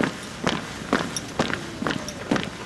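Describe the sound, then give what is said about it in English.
Footsteps of firefighters marching in a column into the Navy Pier ballroom at a fallen colleague's memorial, a steady run of evenly spaced, fairly faint steps with no talk. “They marched in a column into the pier's ballroom, saluting their fallen colleague as they walked by his remains.”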